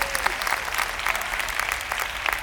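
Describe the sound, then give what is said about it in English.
An audience gives a few light hand claps, a scattered patter of individual claps rather than full applause, steady in level and fairly soft throughout. “Thank you for a few hand claps I got.”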